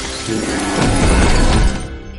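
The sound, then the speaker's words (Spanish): A glass pane shatters as bodies crash through it, a loud, dense burst of breaking noise that holds for over a second before quickly fading. “Otra bestia lo empuja y destrozan un cristal al caer.”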